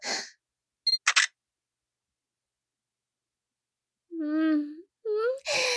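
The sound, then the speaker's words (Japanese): A camera shutter fires as a photo is taken, giving a quick cluster of sharp clicks, followed after a pause by brief high vocal sounds. “じゃあ、撮るよ。”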